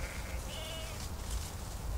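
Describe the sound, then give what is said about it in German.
Sheep bleat in a flock kept by a shepherd who moves them from meadow to meadow. A couple of short, wavering, nasal bleats rise over a steady low background murmur. “Der Schäfer verbringt die Nächte zu Hause, hütet seine Schafe und wandert mit ihnen tagsüber. Von Wiese zu Wiese.”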